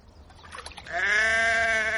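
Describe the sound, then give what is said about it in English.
A ewe on a farm, being shoved into a trough, lets out one long, loud, wavering bleat after a moment of faint shuffling. “Shove that ewe into the trough, ma'am. Oh, don't let it turn round.”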